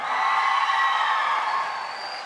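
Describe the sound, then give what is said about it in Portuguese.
A church audience applauds and cheers in a dense, loud, steady wash of clapping and crowd noise that eases slightly at the end. “Vamos aplaudir, pessoal.”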